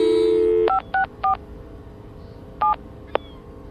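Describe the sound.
Telephone keypad tones as a number is dialled: a steady dial tone cuts off, then several short, evenly pitched beeps sound at uneven intervals, followed by a single faint click.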